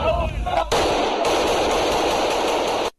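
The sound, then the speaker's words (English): A stock gunfire sound effect: a loud, dense burst of continuous automatic fire lasting a few seconds, then cut off abruptly. A voice is briefly heard just before it. “I got a clip for you for your collection of evergreen sound effects. Oh. Let me see if I can find it. No. Evergreen guns.”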